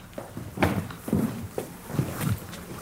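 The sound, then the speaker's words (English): Footsteps walking backstage in a theater, a steady series of soft thuds about half a second apart, moderately loud. “All right, let's take a walk backstage.”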